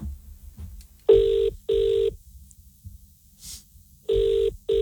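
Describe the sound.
A telephone rings with an incoming call during a live radio segment. Steady electronic ring tones sound in two pairs of short, even bursts, with a pause between the pairs. No one talks.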